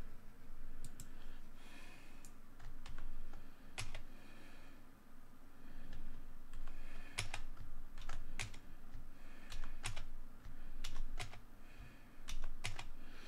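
Typing on a computer keyboard, with many irregular, crisp key clicks in short bursts over a steady low background. The keystrokes are fairly quiet and no one speaks.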